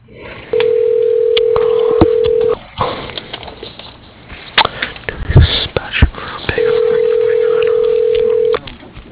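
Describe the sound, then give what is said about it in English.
Telephone tones on a phone line: two long, steady, mid-pitched tones of about two seconds each, with scratchy line noise and faint clicks filling the gap between them. “For Jimmy Daly, please dial 104.”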